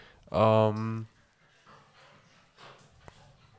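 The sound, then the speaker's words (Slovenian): A pet dog gives one loud, drawn-out vocal sound lasting under a second, followed by quieter, low scattered noises. “To je moj pes, da je veš. Se ne vem, če se sliši, veš.”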